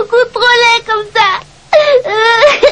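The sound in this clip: A cartoon child cries, wailing and sobbing in a series of loud, high, quavering bursts with short breaks and one longer pause in the middle.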